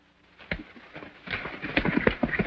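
Horse hooves clip-clop near a small corral, with many uneven hoof strikes growing louder and denser as the animal moves along.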